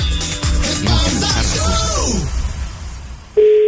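A phone line tone sounds after a call is hung up: a steady, low-pitched beep starts abruptly near the end, following a stretch of loud, strained vocal sounds.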